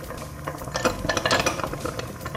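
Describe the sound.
Dishes and a pot clink and clatter as steamed vegetables wrapped in lotus leaf are taken out of a steamer. Light metallic and ceramic knocks come in a busy run over a steady background hiss, with no talk.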